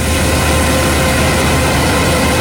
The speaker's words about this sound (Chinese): 收割机正开足马力作业